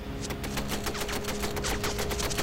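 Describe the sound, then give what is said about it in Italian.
Vickers machine guns fire rapidly from a First World War tank halted over a trench. Dense, evenly spaced bursts of sharp reports run without pause over a steady low mechanical hum. “Mentre i cannoni Vickers sparavano al nemico a destra e a manca.”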